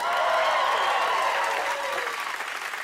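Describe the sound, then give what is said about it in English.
Audience applause at a stand-up comedy act: a dense, steady wash of many hands clapping, loud and continuous throughout, easing slightly toward the end. “Yay! Yay, yay, yay! Give it up for my afro!”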